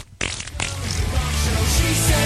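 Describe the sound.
A fart sound effect for a dinosaur child in a comedy sketch: a loud, rough, sputtering rumble with a broad hiss that runs on without a break for about two seconds.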